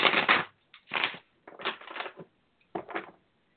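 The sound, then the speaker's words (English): A Golden Tarot deck of tarot cards is shuffled in a few separate riffling bursts, each a crisp papery flutter lasting under a second, with short silent pauses between them. “I'm going to shuffle my tarot cards. I use a deck called the Golden Tarot”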